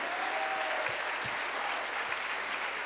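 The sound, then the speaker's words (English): Congregation clapping hands during a church service, a steady, dense wash of applause that holds at an even level throughout with no break. “Clap your hands unto him and bless his name.”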